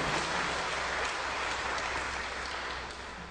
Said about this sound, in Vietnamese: Quý vị vỗ tay cho chính mình nào.